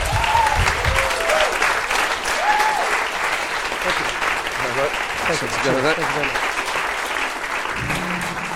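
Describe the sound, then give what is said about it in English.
An audience at a live talk event claps loudly and steadily to welcome a guest to the stage, with voices calling out and mingling with the dense applause throughout. “So, ladies and gentlemen, without further ado, to have, I'm sure, a conversation like no other, please give a massive welcome to Maajid Nawaz.”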